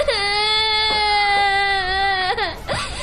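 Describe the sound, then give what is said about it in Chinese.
A young child cries in a loud, high-pitched wail held steadily for over two seconds, then breaks into a shorter, wavering sob. “别哭了，别哭了。”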